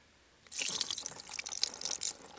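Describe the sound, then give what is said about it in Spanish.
Broth poured over meat and bread set on a rock: after a brief quiet, a steady splashing, trickling rush of liquid starts and carries on, bright and hissy, with no voices. “Vierte el caldo y pon la carne y los panes sobre la roca.”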